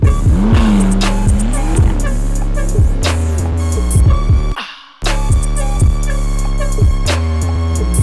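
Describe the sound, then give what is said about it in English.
A McLaren sports car engine revs and accelerates with a loud, swooping whine and tire squeal over a pulsing music beat, with a brief dropout partway through. “Boy, that's McLaren, that's Zero to 60 and 2.9, I'm gone.”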